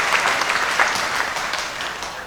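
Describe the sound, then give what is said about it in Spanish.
Loud applause from a church parish audience: a dense, continuous patter of many hands, steady throughout and tapering a little toward the end. “Fuertes aplausos para todos.”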